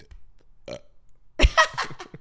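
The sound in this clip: A person burps on cue, one loud, croaky, drawn-out belch that comes after a brief faint sound, with no talk during it.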